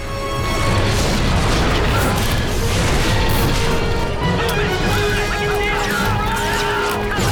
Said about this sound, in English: The Republic's clone troopers fall in behind barricades and open fire.